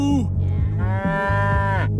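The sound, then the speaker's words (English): Cow mooing: a short call that falls in pitch, then a long, loud, steady low moo of about a second, over a constant low hum. “I like the way you moo.”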